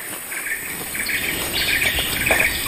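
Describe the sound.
Birds call in a tropical rainforest, with scattered short chirps and tweets over a steady high insect-like drone, moderately loud and without voices.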